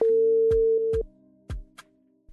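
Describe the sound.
A telephone line tone plays while a radio listener is being called. A steady, mid-pitched tone holds for about a second, then gives way to near silence broken by a few sharp clicks.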